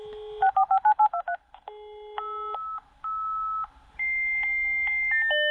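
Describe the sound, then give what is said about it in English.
A dial-up internet modem connects, opening with a rapid burst of touch-tone keypad beeps. Several longer, steady electronic tones follow, stepping between pitches, with short gaps between them. “I would like to say no, but I am that old and I will recognise the dial-up sound, yes. The dial-up sound, correct.”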